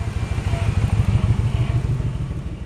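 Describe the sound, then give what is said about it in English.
A normal motorcycle drives through a town's downtown streets, its engine giving a steady, low, rapid throbbing pulse that stays fairly loud and eases slightly near the end. “This is the sound of a normal motorcycle driving through downtown Eureka Springs.”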